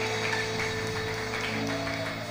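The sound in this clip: Congregation applauding during a Sunday service at Eglise Source Féconde, soft, steady clapping over a sustained tonal drone.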